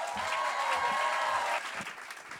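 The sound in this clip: An audience at a poetry slam applauds a performer with dense, steady clapping and some cheering, quiet overall and thinning out toward the end.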